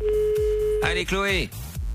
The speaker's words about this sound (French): Allez, déjà ça sonne. Si elle décroche et qu'elle répond bien à la question que je lui pose, ce sera gagné.